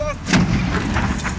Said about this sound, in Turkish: Ama ani bir patlamayla karşılaştılar. Çevredekiler patlamadan kıl payı kurtuldu.